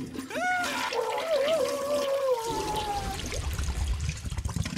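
A toilet flush sound effect: a whistling tone glides and wavers over the first few seconds, then gives way to rough, rushing water noise that continues to the end.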